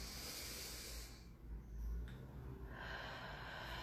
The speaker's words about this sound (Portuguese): Respira bem fundo.